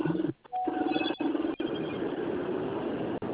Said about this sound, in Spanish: Vamos a finalizar la llamada, no responde.